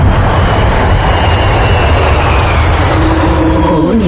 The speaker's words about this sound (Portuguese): Preparar para a decolagem rumo às grandes músicas. Aperte os cintos e boa viagem.